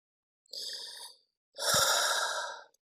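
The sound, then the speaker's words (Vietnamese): A deep breath taken to calm down, heard as two airy breathing sounds with no speech. The first is shorter and softer. The second is longer and louder. “Cô bình tĩnh lại, hít một hơi thật sâu nói.”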